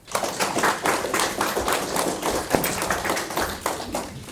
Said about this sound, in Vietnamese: Mừng quá, vỗ tay giòn ghê.